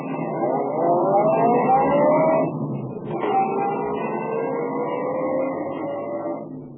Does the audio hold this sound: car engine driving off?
yes